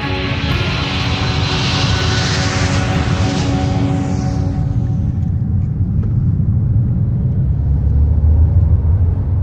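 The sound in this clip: An airplane passes with a loud, broad engine roar and a high whine that fades away after about four seconds, leaving a low, steady rumbling drone.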